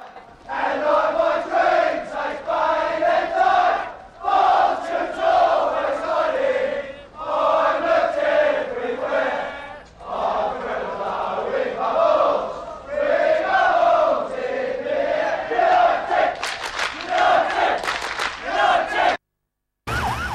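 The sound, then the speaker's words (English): A crowd of football fans chants in loud unison as they head down a street with arms raised, voices rising and falling in repeated phrases with short pauses between them. “The crowd heads off down the street with their arms in the air.”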